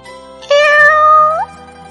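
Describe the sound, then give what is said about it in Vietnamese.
A black cat gives one clear, loud meow, rising slightly then bending upward at the end, heard alone against near silence. “Lúc ấy, chợt mèo đen kêu một tiếng, thu chân quay đầu lại.”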